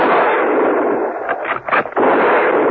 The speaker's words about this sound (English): They heard the shots from the deserted garage and ran towards it.